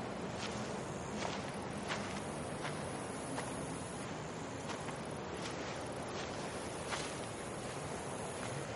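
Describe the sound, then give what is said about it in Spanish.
Footsteps of a woman walking slowly home beside a concrete wall: a steady series of soft, evenly spaced steps under continuous hissing noise. “Vuelve a su casa caminando parsimoniosamente.”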